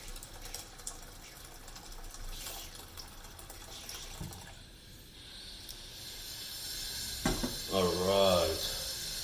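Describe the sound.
Water running from a sink tap into a pot, faint and splashy at first, then growing louder and more resonant toward the end as the pot fills.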